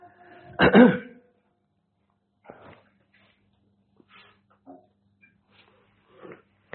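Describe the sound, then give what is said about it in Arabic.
A single loud, rough cough from an inflamed, sore throat, followed by a few faint, brief sounds in near silence. “سامحوني أنا عندي التهاب في الحلق، يجل هذا أسعل كثيرا”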